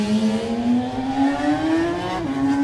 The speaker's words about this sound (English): No matter who you are, if you know an RG500, that's what they sound like.